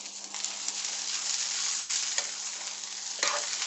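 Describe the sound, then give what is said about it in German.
Pointed cabbage sizzles in a frying pan: a steady, dense hiss with a few sharper crackling bursts and a brief dip partway through, over a faint low hum. “ich habe die ganze Zeit Angst mit diesem scheiß Salat, der da vor sich hin brutzelt”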